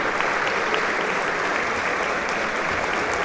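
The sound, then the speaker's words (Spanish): An audience gives sustained applause in a theater after a tango concert. The dense, even clapping holds at a steady level throughout, with no pauses, peaks or fade. “Siguen los aplausos.”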